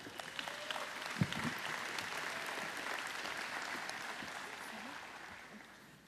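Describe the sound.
A church audience applauds the preacher's wife as she comes up, with steady, even clapping that fades slightly toward the end.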